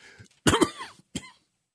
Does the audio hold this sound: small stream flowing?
no